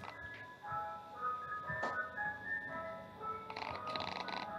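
An ice cream truck's jingle plays as the truck drives past, a steady run of melodic electronic tones held at a fairly even level, with a few brief noise bursts mixed in.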